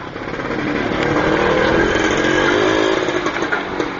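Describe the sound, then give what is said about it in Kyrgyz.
A homemade tractor's engine runs, a Muravey scooter motor paired with a Zhiguli gearbox on a machine with a Zaporozhets front end and Moskvich rear axles. It makes a steady, loud, buzzing drone with no voices. “Мына бул тракторду өзүңөр көргөндө Жигулинин коробкасы турат, Муравейдин мотору, алды Запорожецтики, арткы мосттору Москвичтики турат”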